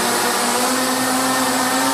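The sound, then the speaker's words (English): The propellers of a 64-motor futuristic flying machine roar to life inside a sports centre, a dense, whining buzz with a steady humming tone, loud and unbroken throughout. “As the propellers roared to life, the enlarged vision of Werner's futuristic machine slowly rose into the air.”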